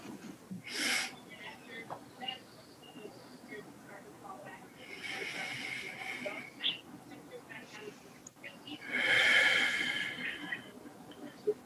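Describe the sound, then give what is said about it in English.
Deep inhales and exhales at the opening of a recovery meeting: slow, airy breaths swelling and fading a few times, soft and unhurried, with no talk. “Let's open this meeting with some inhales and exhales”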